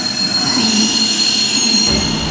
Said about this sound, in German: Entschuldigung, fährt dieser Zug nach Amsterdam?